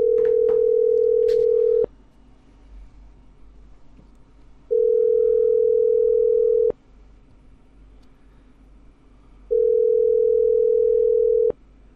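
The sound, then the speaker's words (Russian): Telephone tones while calling a debt-collection service: three long, steady beeps of about two seconds each, separated by quiet gaps of roughly three seconds, with a few faint clicks at the start. “Звоню в НСВ.”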